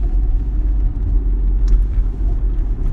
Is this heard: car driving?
yes

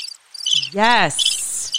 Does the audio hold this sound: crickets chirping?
yes

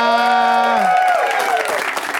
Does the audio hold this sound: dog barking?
no

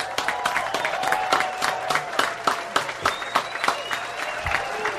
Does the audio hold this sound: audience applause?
yes

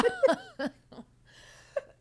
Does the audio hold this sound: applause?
no

